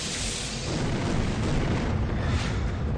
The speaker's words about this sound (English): Throw a nade.